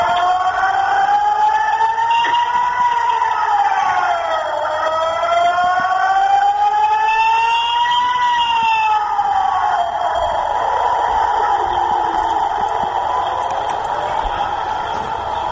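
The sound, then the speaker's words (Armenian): Air raid siren in Tel Aviv, Israel, warning of incoming rocket attacks, wails loudly and continuously, its pitch rising and falling in slow sweeping cycles for the whole stretch. “Ահա այս ահազանգը դարձել է մեր կյանքի ամենօրյա ուղեկիցը։”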